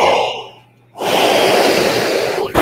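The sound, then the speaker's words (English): A person yawns loudly into a microphone: a breathy opening sound fades to a brief near-silence, then a long, loud, airy stretch follows, ending in a couple of small rough bursts. “I was yawning. I'm sorry. I thought I had my mic on mute.”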